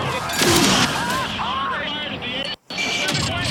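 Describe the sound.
Gunfire rattles through a video game trailer's attack on an airship, with dense volleys and bursts mixed with whooshing, swooping tones, cut by a sudden brief silence before the firing resumes.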